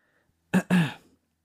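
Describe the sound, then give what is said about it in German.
A man clears his throat in two short, gruff bursts, the second longer and trailing off, against otherwise near silence. “Er räuspert sich doch mal vorher, als wäre das so ein Hardcore-Gedicht, ja.”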